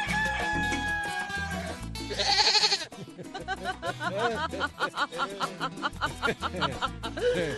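A man imitates a goat bleating, producing a long run of quick, wavering, nasal bleats that pulse rapidly and fairly loudly through the second half, after a short burst of louder hissing sound.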